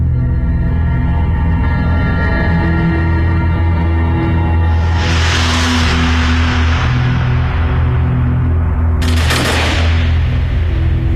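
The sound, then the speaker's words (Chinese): Loud gunfire from German troops shooting Jewish victims at a mass grave pit during the war: two broad crashing bursts ring out over a constant low rumble, and the second is sharper and more abrupt. “枪声响过，数名犹太人倒下”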